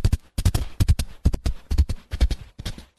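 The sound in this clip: Horse hooves galloping in a sound-effect gallop panned from left to right, a quick, loud run of sharp clip-clop strikes in an even, driving rhythm.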